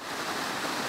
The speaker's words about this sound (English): That's the sound of rusty, orangish water pouring down a rocky hillside, directly into an inlet of Harrington Lake.